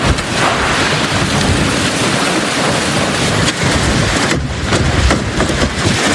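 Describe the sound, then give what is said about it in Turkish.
Heavy rain and strong wind lash New York streets in a thunderstorm that topples trees. A loud, steady rushing roar runs throughout, with deep rumbling underneath. “Fırtına önüne neyi kattıysa aldı götürdü. İnsanlar yollarda yürümekte zorlandı.”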